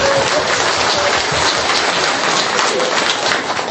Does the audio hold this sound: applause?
yes